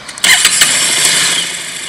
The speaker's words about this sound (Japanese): 新車のエンジン音